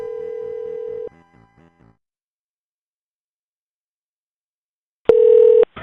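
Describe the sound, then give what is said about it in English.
Telephone line tones from a call ringing out to a fast-food restaurant: a steady, loud ringing tone lasting about a second, then a few short beeps, a long silence, and a second steady tone burst. “Oh, yeah, you can call, I can call Burger King.”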